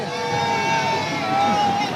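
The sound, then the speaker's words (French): A crowd waits along the Champs-Élysées in Paris for the pope to arrive, making a steady, dense murmur of many voices with a faint sustained tone running through it. “L'ambiance qui est en train de monter le long des Champs-Élysées, effectivement, le pape qui est en approche”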